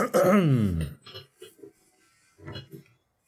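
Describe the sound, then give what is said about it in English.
A man clears his throat with a loud, rough, guttural rasp that falls in pitch, followed by a few brief, quieter vocal sounds. “Mort clears his throat.”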